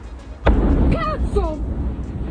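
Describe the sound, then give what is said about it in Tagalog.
An explosion at an ammunition factory near Rome, Italy, in the powder pressing department: a sudden loud blast that gives way to a sustained heavy roar, with voices briefly rising over it. “Sa Italy, isang pagsabog ang nakuhanan sa isang ammunition factory sa Cuyafero malapit sa siyudad ng Rome.”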